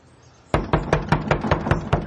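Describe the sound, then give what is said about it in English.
Knocking on a house door: a quick, steady series of sharp, hollow raps that begins suddenly after a faint background hush and continues at an even pace. “knocks on the door of the house across the street.”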